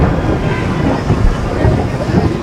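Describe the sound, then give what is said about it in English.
Thunder rumbles during a rainstorm at an outdoor tennis tournament, a loud, continuous low roll with no sharp crack, steady throughout the short clip. “Thunder like that is no deterrent for Bruce Kadanian”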